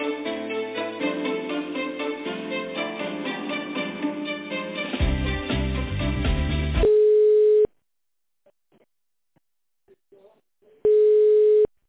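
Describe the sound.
Music plays before it cuts to a steady, mid-pitched telephone tone while a call is being connected. Two long, loud beeps are separated by several seconds of near silence with faint clicks.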